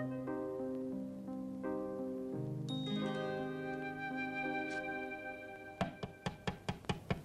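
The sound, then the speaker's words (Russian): Knocking on a car windscreen: a quick series of sharp raps follows sustained musical tones, with the knocks clear and distinct at the end. “просыпается от стука в ветровое стекло”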